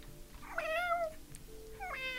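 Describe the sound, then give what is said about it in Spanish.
A cat held in someone's arms aboard a ship meows twice, faintly. The first meow is long and wavering, and the second is shorter and cut off at the end, over a low steady hum. “Joseph Murham aguardaba con un gato entre sus brazos”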